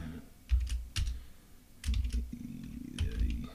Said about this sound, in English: I went ahead and typed it